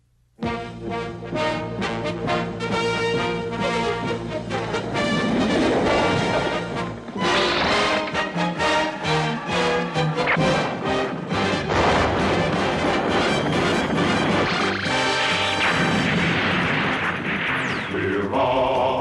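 Rousing theme music from the sci-fi anime Space Battleship Yamato, loud and continuous, with bold sustained chords and punchy percussive hits driving throughout.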